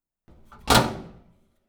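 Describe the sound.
A sauna door is pushed shut: a soft sliding rub, then a single heavy thud that fades out over about half a second.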